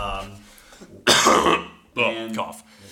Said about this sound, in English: I was coughing because I was sick last week.